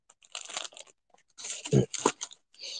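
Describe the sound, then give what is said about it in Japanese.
Crackly peeling of a sticker from its backing, to be stuck on a suitcase: several short, scratchy, tearing bursts separated by brief pauses, fairly faint. “ステッカーあるわ。貼るか。”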